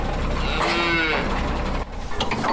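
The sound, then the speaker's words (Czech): Scottish Highland cattle, a hardy breed returned to pasture on a former firing range after the winter. One long, low, drawn-out moo rises over a steady background murmur. “Proměnu jim pomáhá dokončovat stádo odolného plemene skotu. Na pastviny se teď vrátilo po zimní pauze. K bývalé střelnici se teď blíží nákladní vůz naložený skotským skotem.”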